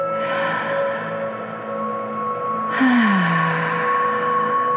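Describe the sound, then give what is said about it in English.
A deep breath is drawn in, a soft, breathy inhale that rises partway through over gentle, sustained background music in a calm children's meditation setting. “And with his eyes closed, he took a nice deep breath.”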